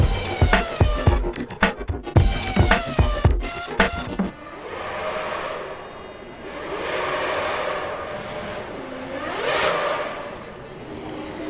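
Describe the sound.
Racing cars at the start of a motor race: a burst of sharp, crackling engine pulses for about four seconds, then engine roars that swell and fade in several long passing sweeps.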